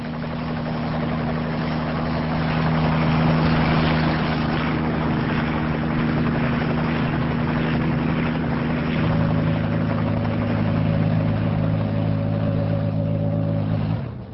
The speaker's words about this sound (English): After a while, the helicopter leaves the ocean and heads inland. Here we go. They descend towards a small landing pad situated outside a solitary bungalow.